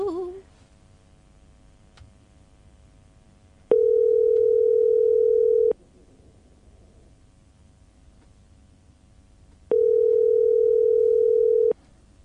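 Telephone tone while calling a competition winner: two long, steady mid-pitched tones, each lasting about two seconds and separated by a pause, over a faint low background hiss.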